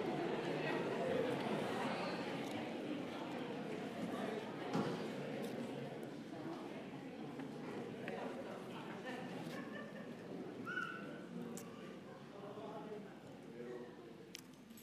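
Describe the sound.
A church audience at a Pentecostal service chats as people greet their neighbours. Many overlapping voices form a soft, continuous murmur that gradually thins out.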